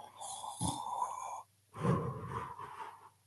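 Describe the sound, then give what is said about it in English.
A voice imitates light, gentle snoring with two soft, breathy snores separated by a short pause, quiet and alone. “and I went, she's snoring. Very lightly. Very, very, almost a feminine snore.”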